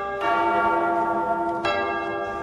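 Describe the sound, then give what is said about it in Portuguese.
A church bell rung by the sacristan sounds two loud, resonant strikes about a second and a half apart. Each leaves a rich, sustained ringing tone that carries between and after the strikes. “Atenção, toca o sino, seu sacristão!”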